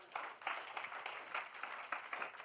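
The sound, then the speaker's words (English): Faint church audience clapping for Jesus, irregular bursts of many hands that swell and dip without a steady beat. “Clap for the Lord Jesus.”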